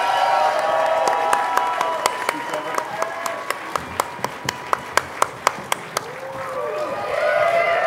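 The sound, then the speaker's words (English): An audience gives a standing ovation at a game show, with dense applause and cheering and a steady run of sharp, evenly spaced claps through the middle. A voice is heard over the noise. “Standing ovation, ladies and gentlemen.”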